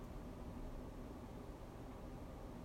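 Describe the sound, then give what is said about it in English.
Faint steady hum of a small fan running in a basement, a soft, even whir that continues without change for the whole moment. “the little humming fan in the basement”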